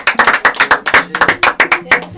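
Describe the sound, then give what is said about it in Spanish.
Rhythmic applause in a radio studio: many sharp, loud hand claps in a quick, fairly regular beat, each one standing out distinctly rather than blurring into a wash. “Fuerte el aplauso.”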